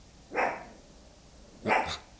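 Two short barks from a dog at a house, spaced more than a second apart, fairly faint against a quiet background.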